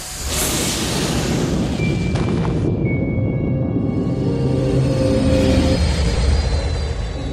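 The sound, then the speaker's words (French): A spaceship leaving a docking bay into space gives off a loud, continuous engine roar like a jet, with a bright hiss over the rumble that cuts out partway through while the deep drone carries on. “Le vaisseau sortit de la baie d'embarquement, plongeant dans l'espace.”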